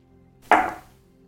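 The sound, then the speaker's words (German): Dice rolled during a tabletop role-playing game session give a single sharp clatter that quickly fades into a brief rattle, with no talk. “Dann würfel mal bitte.”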